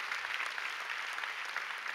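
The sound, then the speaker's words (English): Church audience applause during a sermon: many hands clapping in a dense, continuous patter that holds at a fairly even, moderate level for the whole clip. “Come on, give God a big round of applause.”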